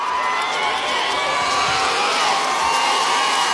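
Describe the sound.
Cheering and shouting from a big festival crowd at Lowlands during a live pop show as the singer's guitarist brother comes on stage. The roar is loud and sustained and stays dense and steady throughout.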